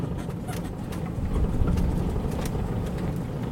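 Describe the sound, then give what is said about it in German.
Golf-cart-style vehicle driving onto cemetery grounds through a grand entrance gate. Its steady, low motor hum carries throughout, with faint rattles and clicks above it and no talk. “Wir fahren mit einer Art Golfwagen auf das Friedhofsgelände, durch ein pompöses Eingangstor”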